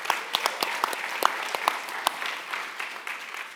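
Fairly quiet audience applause welcomes a guest preacher arriving to co-preach at a church's 10-year anniversary service, with crisp individual claps standing out from a softer bed of clapping throughout.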